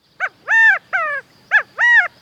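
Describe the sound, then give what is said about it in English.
Calls of the California quail, a small ground bird of the far west, come loud and clear: two repeated three-note phrases, each a short clipped note followed by two longer, ringing notes. “Does this bird seem to be saying, Chicago, Chicago? Don't be misled. This small ground bird, the California quail, is strictly a bird of the far west.”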